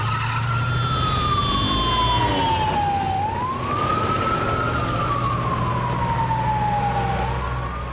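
A police car siren wails in slow, loud sweeps that rise and fall in pitch, steady throughout over a low rumbling engine and traffic drone.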